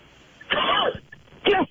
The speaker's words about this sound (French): Pardon, excusez-moi, je m'étouffe.